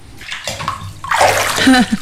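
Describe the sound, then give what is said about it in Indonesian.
Water sloshes and splashes in a bathtub filled with freshly boiled water as a woman climbs in, short choppy bursts growing louder toward the end. “Tadi Palui sudah rebuskan air untuk mandi ibu. Ibu, airnya sudah siap. Sekarang ibu masuk ke dalam bak itu dan mandi ya.”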